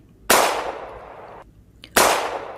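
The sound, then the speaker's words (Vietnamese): Two sharp gunshots a little over a second and a half apart. Each is a sudden loud crack followed by a long fading tail, with near silence between them. “Một tiếng súng vang lên”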